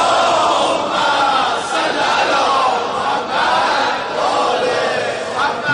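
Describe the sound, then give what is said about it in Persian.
Crowd loudly reciting salawat in unison at a celebratory gathering: many voices merge into one continuous, loud chorus that rises and falls in long phrases without a break. “هرکی خسته نیست یه صلوات بلند بفرست.”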